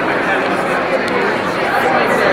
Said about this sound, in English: So we're making our way in. Crowd's getting huge. It's kind of crazy.